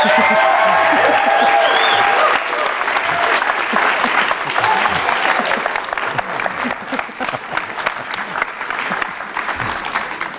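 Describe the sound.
Audience applause welcoming a Game of Thrones director onstage, loud and dense clapping that holds for a couple of seconds, then gradually thins and tapers off while a few voices come through.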